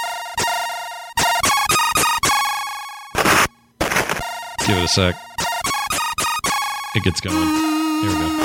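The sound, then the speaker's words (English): Commodore 64 karate fighting game music: bright, buzzy chiptune square-wave melody with rapid staccato notes and sharp noisy drum bursts, loud and busy throughout, with a brief voice speaking over the start. “Now, if you don't know what this is, it's a little game called International Karate.”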